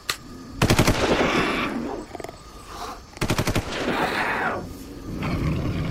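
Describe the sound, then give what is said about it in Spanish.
Gunshots fired into the air as warning shots to scatter a crowd of children: two rapid bursts of several sharp, cracking reports, separated by loud, roaring, rumbling noise. “Dispara al aire para que se espanten.”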